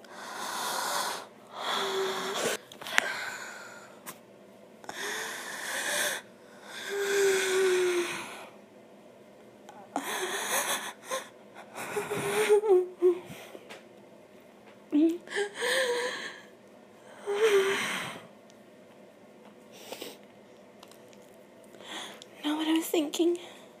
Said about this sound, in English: Here, like me. Take deep breaths.